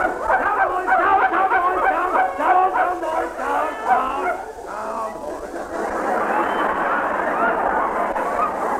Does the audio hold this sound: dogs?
yes